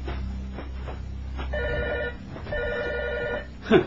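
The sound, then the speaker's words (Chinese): A telephone that was unplugged at night rings in two electronic bursts of warbling tone over a low steady hum, with no voices. “明明掹咗个插苏先上床瞓嘅，个电话仲会响”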